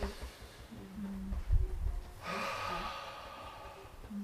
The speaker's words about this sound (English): So as you're taking the breath in, just...